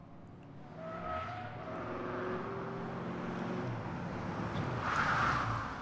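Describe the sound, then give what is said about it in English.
A car engine drones at a fairly low level, its tone shifting up and down in pitch as it runs, with a continuous rough road-noise wash underneath. “Yeah, car.”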